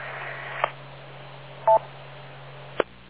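DTMF tones dialing up a radio repeater link: three short, evenly spaced tone bursts, fairly faint, over a steady low hum with no talking.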